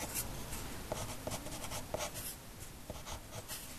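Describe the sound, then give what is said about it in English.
A pencil scratches out short, quick strokes while drawing eyelashes on a female character, a steady run of many light scribbles on paper heard alone. “Maybe I'll draw one of my female characters. I'm gonna add some eyelashes.”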